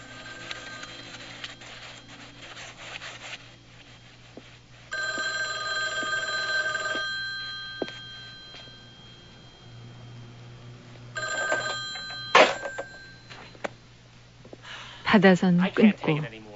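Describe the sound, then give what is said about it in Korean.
A telephone bell rings in a few separate bursts of bright, steady ringing, with quieter gaps between them over a low background hum. “그날 저녁부터 프랭키는 전화도 일체 받지 않습니다.”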